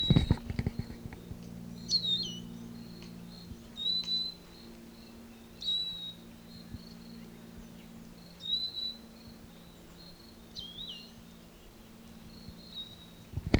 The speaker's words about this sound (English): Same bird.